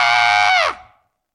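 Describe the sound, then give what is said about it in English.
A voice imitates a little girl in a stroller letting out a death wail: one loud, sustained high scream that bends downward in pitch and quickly dies away. “She's just screaming, a death wail.”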